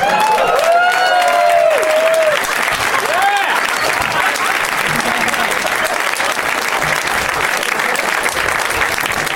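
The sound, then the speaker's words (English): Loud audience applause and cheering greet guests as they come on stage at a live show. Whistles and shouts rise over the dense clapping at first, and the applause then carries on steadily. “And so let's get these three dudes out here. Please welcome to the stage, you guys, Paul F. Tompkins, Andrew Lloyd Webber, and Gary Marshall.”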